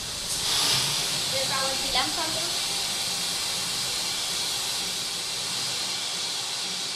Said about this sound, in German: Jetzt hören wir die Hochdruckpumpe für die Flüssigkeit und sie fährt jetzt langsam an.